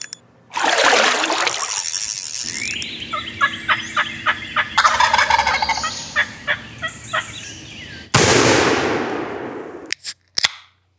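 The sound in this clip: Wild turkeys gobble and hens give sharp cutting calls on a morning turkey hunt. A loud rattling gobble opens, followed by a run of clipped, uneven yelps and clucks, then another loud, rough burst near the end.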